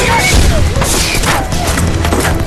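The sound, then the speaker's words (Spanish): Enemy gunfire and explosions in a battle while civilians are evacuated: a loud, dense barrage of booms, crashes and rattling shots with no letup, with voices amid the noise. “¡Trae fuego enemigo! ¡Hay que movernos!”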